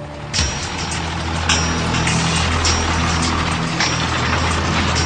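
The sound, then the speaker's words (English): An armored army vehicle drives toward the front line, with a continuous low engine rumble and a steady droning hum that stay even throughout. “Well, it's early in the morning now and we're heading up to the front line. We have to be in this armored vehicle”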